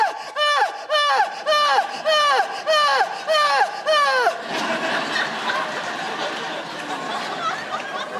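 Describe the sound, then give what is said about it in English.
A voice imitates very loud, melodramatic Greek-tragedy crying with a quick run of seven wailing sobs, each sliding down in pitch. Softer, breathier noise follows. “We also all have the same way of crying. This like very loud, melodramatic way of crying that I like to call Greek tragedy crying. And it sounds kind of like this.”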